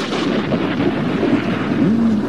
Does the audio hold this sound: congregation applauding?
no